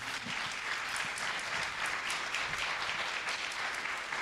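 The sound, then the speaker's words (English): Steady applause from a church audience thanking a couple after their testimony. Dense clapping holds at an even level throughout, with no voices over it. “Can we give them a hand?”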